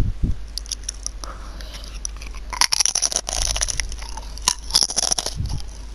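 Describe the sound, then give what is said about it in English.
Pringles crisps being crunched and chewed in an ASMR-style session: many crisp, crackling bites and moist chewing, with louder clusters of crunches partway through and soft low thumps at the start and end. “Just eat your fucking Pringles.”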